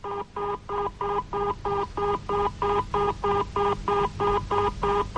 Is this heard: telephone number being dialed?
yes